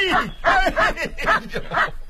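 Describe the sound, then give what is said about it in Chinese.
A voice imitates the barking of Dahei, a black dog wagging its tail as guests arrive, giving five quick voiced yelps in a steady, even rhythm. “你看看这大黑摇着尾巴叫啊，就一定有贵客到。”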